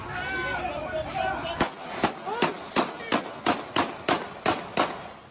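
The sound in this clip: Gunshots from several shooters heard on a played recording: many sharp, loud bangs in a rapid, fairly even series. Talk comes just before the shots begin.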